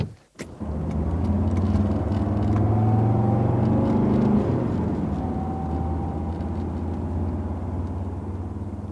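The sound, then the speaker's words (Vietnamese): A taxi drives fast along an open road to the airport. Its engine and road noise make a loud, steady drone for the whole stretch, after a single sharp knock at the very start. “May là đường không đông xe, nên tài xế taxi chạy nhanh được.”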